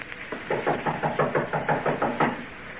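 Police knock on a door in a drama, a fast, evenly spaced run of many heavy knocks with no voices over them.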